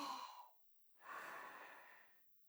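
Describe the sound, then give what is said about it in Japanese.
A patient breathes in and out for a medical check. The breathing is soft and faint: a breath, a short silence, then a longer breath alone. “ではもう一度吸って吐いて、”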